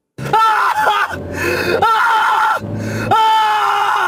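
A man's desperate, anguished screaming: loud, high, strained cries broken into a few long bursts with short gaps between them.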